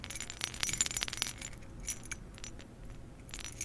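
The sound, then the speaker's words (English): A bunch of keys jingled and shaken, giving many bright metallic chinks and rattles, busiest at the start and then thinning to softer scattered jangles. “Let's just jingle those keys in front of you. I think you want to hear those fucking keys in front of you. You hear that sound?”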